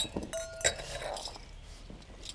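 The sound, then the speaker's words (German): Wine glasses clink softly while being dried, a few bright glassy taps with short ringing tones, followed by faint rubbing and handling noise. “Die Gläser, die brauchen wir. Lass mal gerade. Ich mach die Gläser noch trocken.”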